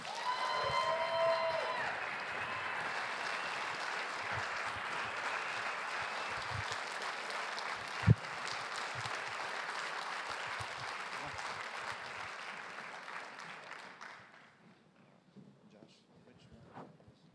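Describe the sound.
Sustained applause from a church audience welcoming two guest visitors from Russia, a dense, steady wash of clapping that holds for about fourteen seconds, with one sharp thump partway through, before thinning and fading out.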